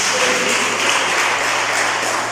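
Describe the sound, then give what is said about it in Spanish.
Sustained applause from a church audience at an afternoon Spanish-language service, a steady, dense wash of clapping that holds at an even level throughout. “¿No le puede dar ese aplauso al Señor, por favor, esta tarde?”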